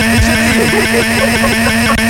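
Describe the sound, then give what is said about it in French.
A scooter engine starting up runs with a loud, steady, rapid putter throughout. “alors une seconde, je démarre mon scooter.”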